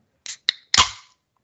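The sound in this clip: A drink can is cracked open: two quick sharp clicks, then a louder crack that trails into a short fizzing hiss before silence.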